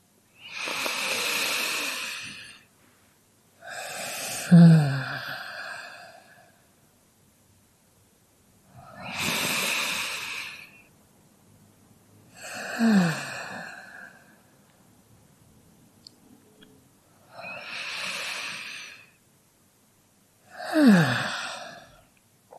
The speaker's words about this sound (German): nimm 3 tiefe Atemzüge